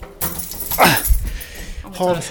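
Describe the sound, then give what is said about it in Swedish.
A bunch of keys jingles while someone walks between rehearsal rooms, a bright, continuous metallic chatter and clatter with speech mixed in. “nyckelknippan som plingar här”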